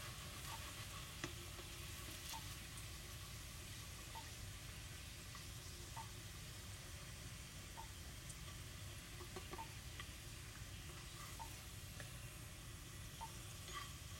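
A potato frying in a pan, a faint, steady crackling sizzle that runs evenly throughout with occasional small pops.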